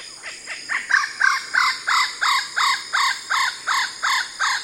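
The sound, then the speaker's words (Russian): A kookaburra in Sydney gives its laughing call: a long, even series of loud, harsh, repeated cackling notes in a steady rhythm, with no voices. “Ты идешь по Сидней, у тебя орёт кукабара”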